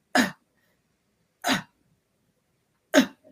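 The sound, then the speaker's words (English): A voice imitates the gasping, labored breathing of an asthma patient: three short, harsh, breathy gasps at even intervals, each cutting off abruptly, with silence between them. “It's maybe only an asthma patient can relate, but you breathe like this.”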